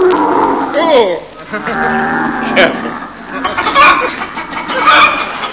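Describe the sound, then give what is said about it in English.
Camels grunting, groaning and bellowing while being ridden: loud, irregular animal calls, some rising and falling in pitch, in a few rough bursts one after another with no talking. “We rode in silence, save for the odd noises camels are wont to make.”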